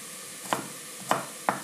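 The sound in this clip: A knife dicing carrot halves into small cubes, giving three sharp, fairly faint chops spaced unevenly, with no voices.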